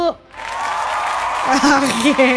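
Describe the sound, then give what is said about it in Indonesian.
Applause, a steady and fairly loud burst of clapping that swells in after a brief quiet start, with a voice talking over it during the second half. “Applause dulu deh buat kamu deh kalau gitu.”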